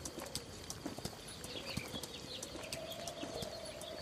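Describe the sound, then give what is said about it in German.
Hooves clip-clop as horses are ridden at a relaxed pace across meadows, faint, steady, uneven clopping over a constant soft background hiss. “Ihr reitet entspannt durch Heimwiese.”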